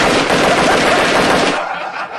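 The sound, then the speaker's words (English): An AK-47 gunfire sound effect: a dense, loud burst of rapid automatic fire lasting about a second and a half, then falling to a quieter tail. “Now the AK 47.”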